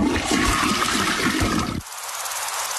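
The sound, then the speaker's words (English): A toilet flushing with a loud, broad rush of water that runs steadily, then drops off abruptly near the end into a quieter hiss. “This could have all been prevented if people didn't flush baby wipes down the pipes. Even if they say they're flushable, they're not.”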